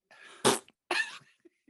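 A short fart sounds as two raspy bursts: the first sharp and loud, the second longer and buzzier, followed by a few faint puffs.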